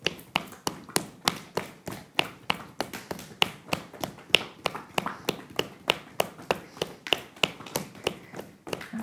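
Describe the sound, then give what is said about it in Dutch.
Hands firmly tapping the soles of the feet during a self-massage, a long steady run of many crisp, evenly spaced slaps in a brisk regular rhythm, with no talking. “Dus je kan de zool van voet stevig loskloppen.”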